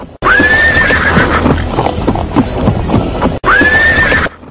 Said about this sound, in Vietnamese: Ngựa hí lên vang vọng cả trường đua